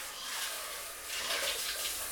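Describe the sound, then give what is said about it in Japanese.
Shower water runs in a faint, steady hiss, a continuous spray with no breaks and no voices. “シャワーで流しちゃいますね。”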